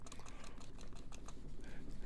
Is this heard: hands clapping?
no